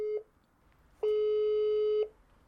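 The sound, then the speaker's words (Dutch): A video call rings on a phone: a brief steady tone, a short pause, then a longer one-second tone at the same pitch, clear and alone. “Dan gaan we kijken of je ook video kan bellen. Dus als je, dat je elkaar kan zien.”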